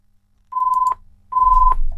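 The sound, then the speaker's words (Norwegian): A telephone ringing during a bingo game: two steady, single-pitched electronic tones, each about half a second long, with a short gap between them over a low hum. “Og der ringer telefonen.”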